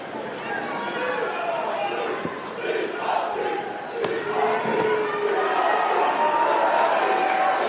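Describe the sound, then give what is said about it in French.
Paris supporters chanting for basketball players at a game, a sustained crowd roar rising and falling beneath people talking over it. “Apparemment, les chants pour Mathieu Strazel et Alpha Diallo sont les mêmes, hein, côté parisien. Pas sur un grand répertoire.”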